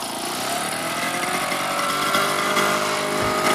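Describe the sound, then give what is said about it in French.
An old Vélo Solex moped engine runs with a steady, buzzing, lawnmower-like drone that holds at an even level throughout, with no talking over it. “Oui, c'est pas bien nerveux. Hein. C'est une tondeuse. Mais notre vélo Solex n'est pas neuf.”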